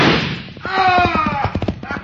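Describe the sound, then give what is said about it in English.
A single loud gunshot in a wartime woodland scene gives a sharp burst with a decaying tail, followed by a man talking. “Who shot that gun? I did.”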